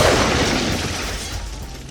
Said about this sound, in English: So, instructions for a hand grenade. Pull the pin. Yep. Release the handle and... Oh yeah, count to five.